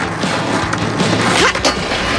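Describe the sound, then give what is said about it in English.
A skateboard scrapes along while landing a feeble grind, a rough, continuous grinding rasp ending in a couple of hard knocks. “Okay, Gabs. Just remember to put your weight on the back of the skateboard before landing.”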